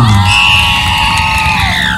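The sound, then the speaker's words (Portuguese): Crowd cheering with high whoops and shouts at a radio station contest in Serra do Ramalho, Bahia, Brazil. The sound is loud and continuous, with ringing cries over a dense rumble of voices. “Bate palmas para ela!”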